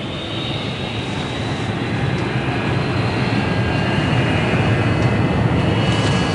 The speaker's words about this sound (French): Ça y est, on décolle. Enfin, j'espère.